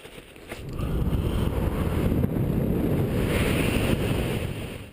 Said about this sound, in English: The wind goes rushing past Don Zarda's GoPro as he steps off a cliff in the Dolomites in Italy, guiding himself to the ground using, at first, just a windsuit